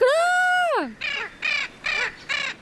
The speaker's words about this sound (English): as the little blue macaw, they're medium-sized birds with a gray head, intense blue plumage, and a black and robust beak. But the most characteristic feature of these macaws is their voice, a short and raspy